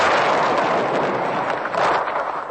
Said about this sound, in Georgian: ეს უკვე წითელ უბანთან ტრიალ მინდორზე ჩამოგდებული თითქმის ერთტონიანი მართვადი აუფეთქებელი რაკეტის ჭურვის განადგურების ხმა.